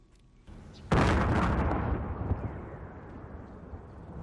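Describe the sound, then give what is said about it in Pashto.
A bomb blast at night in Kabul: one sudden, loud, deep boom followed by a long rumbling roar that slowly fades away. “دا د هغه چاودنې غږ دی چې د دوشنبه په شپه باندې په کابل کې وشو.”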